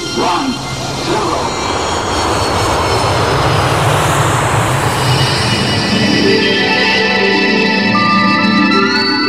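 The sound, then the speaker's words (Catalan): A spaceship takeoff effect: a loud, sustained engine roar like a jet aircraft builds and holds steady for several seconds, dense and rumbling throughout. “Som a punt d'enlairar-nos amb la nau La Fell Luna.”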